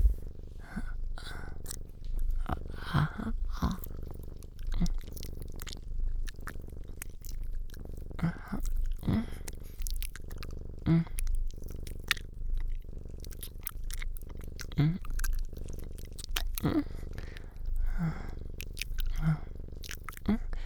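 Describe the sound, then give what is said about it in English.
Wet licking and tongue noises repeat many times in an irregular rhythm, with close, smacky mouth sounds and small moist clicks throughout. “I really want to put that in my mouth. But I'll lick it first, okay?”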